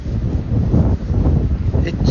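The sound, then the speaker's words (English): Wind buffets the microphone while walking along a river past a pavement in Dublin on a fine day, a steady low rumbling roar with continuous gusty swells and no clear breaks. “lovely wind walking down along the river”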